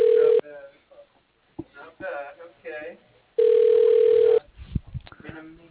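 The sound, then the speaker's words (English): Telephone ringback tones sound as a call is transferred to voicemail: a short steady tone, then a longer one, with voices talking between them. “I'm going to try to transfer you to his voicemail”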